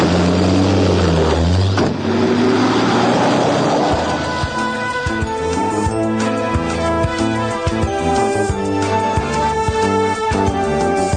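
A car engine accelerates hard, its revving pitch climbing over the first few seconds before settling into a loud, sustained roar that continues to the end.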